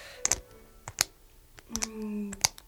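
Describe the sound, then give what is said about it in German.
Sharp clicks of a handbag clasp being snapped open and shut, a few crisp, dry clicks that come in irregular bursts, some in quick pairs, with quiet gaps between them. “Das ist ein Klicken. Wie von einem Verschluss. Das muss Mutters Handtasche gewesen sein. Du hast den Verschluss auf und zu gemacht,”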